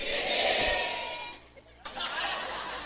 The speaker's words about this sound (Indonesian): Surak hore itu gambarannya wong tepuk tangan. Ayo toh, tepuk tangan.